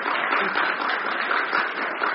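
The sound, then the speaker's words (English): Audience applause honoring mothers at a gathering: dense, steady clapping that holds at an even, fairly loud level through the whole clip with no pauses or voices standing out. “I think they need a second hand of applause because some of them weren't here when we gave the first applause. Let's give them applause.”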